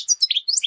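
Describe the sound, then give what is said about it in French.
A European goldfinch sings a quick, high-pitched, melodious twittering of many short chirps and trills, clear and alone. “Ce que vous entendez, c'est un chant mélodieux, celui du chardonneret élégant, oiseau victime d'un trafic chez nous.”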